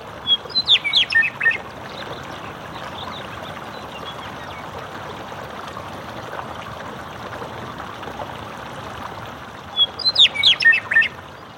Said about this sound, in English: there was a meadowlark who flew in and just perched very close to me in the microphone and just sang his heart out